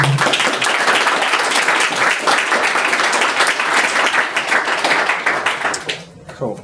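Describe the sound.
An audience claps to welcome a speaker before a talk on the Human Genome Project. Dense, loud applause holds steady for about six seconds, then thins out and fades toward the end.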